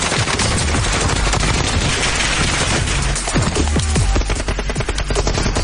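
Gunfire in a video game match, with dense overlapping shots and rapid bursts sounding without pause from start to end.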